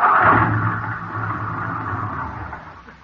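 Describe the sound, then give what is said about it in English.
A car engine runs out of gas with a low, steady rumble and hum that gradually weakens and fades toward the end. “Well, what do you know? We ran out of gas.”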